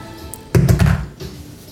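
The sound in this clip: Twenty-sided die rolled onto a phone during a tabletop role-playing game: a quick, fairly loud cluster of hard taps and thunks as it lands and skitters, then fading to quiet.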